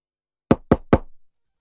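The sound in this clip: Three sharp knocks strike a door in quick, even succession in a radio drama scene. Each knock is a crisp, resonant rap with no other sound around them.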